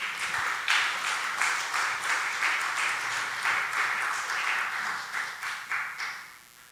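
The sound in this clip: Audience applause welcoming a guest speaker to the front, a sustained bed of clapping that swells and settles, then thins toward the end into a few separate, distinct claps.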